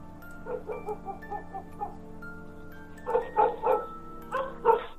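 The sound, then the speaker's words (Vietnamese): Dogs bark loudly in a village neighborhood: a run of quick, lighter barks gives way to a few louder, sharper ones, repeating in short bursts. “Tiếng chó sủa inh ỏi trong xóm.”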